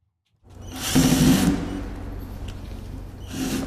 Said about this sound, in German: Ein Angestellter entfernt die letzten Schrauben von der Holzkiste.